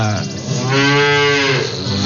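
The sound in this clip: A dairy cow lows once at milking time, a single long, loud, rich moo that swells in the middle and eases off at the end, with no other sound around it.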